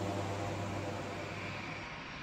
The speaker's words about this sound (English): The newly outfitted plane can therefore fly at higher altitudes and is more powerful.